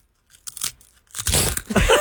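Crunching of loaded nachos being eaten up close, with a few sharp, dry crunches at first and then a louder, denser burst of crunching and chewing.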